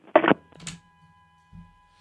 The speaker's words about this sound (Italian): Ah, no, un'altra chiamata. Pronto?